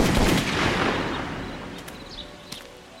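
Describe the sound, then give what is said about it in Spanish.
A firing-squad volley of gunfire at an execution in Mexico, a dense, loud burst of shots that rolls on and slowly fades into faint scattered cracks. “Una ráfaga de plomo y un tiro de gracia terminaron con su vida.”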